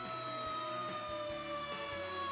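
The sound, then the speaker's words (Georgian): Fire engine siren wailing in a steady, piercing high tone that drifts slightly downward, layered over a low rhythmic engine rumble, loud and continuous throughout. “რატომღაც აქაური სახანძრო მანქანები უკეთ არიან აღჭურვილები, ვიდრე ჩვენი.”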